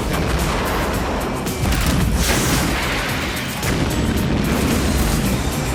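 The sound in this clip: Weapon fire and explosions roar through a 1996 monster-hunting action movie trailer. A dense, loud barrage of booms, blasts and crashes runs continuously, with only a couple of slight dips in intensity.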